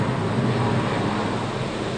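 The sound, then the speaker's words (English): A low-flying helicopter passes overhead, heard through open windows as a loud, steady rumbling whir that holds its level for the whole stretch, with no talk. “There's a helicopter going by with the windows open. I don't really care for that. Holy shit, that's low.”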